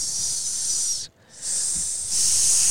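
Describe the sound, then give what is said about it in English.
Steak sizzling: a loud, steady, bright hiss that drops away briefly near the middle, then resumes at full strength. “We're sizzling steak. You can't hear me talk.”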